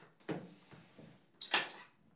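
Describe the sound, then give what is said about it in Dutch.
A small cabinet drawer is pulled open indoors: a few soft wooden knocks followed by a louder, brief sliding rush, all fairly faint. “Ik trek even een kastje open.”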